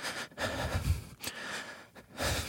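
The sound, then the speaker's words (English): A person demonstrates rapid, shallow breathing under stress, a series of quick, airy inhales and exhales in close succession with short gaps between them. “When we're in a state of stress, our breath responds accordingly. For most people, it sounds like this.”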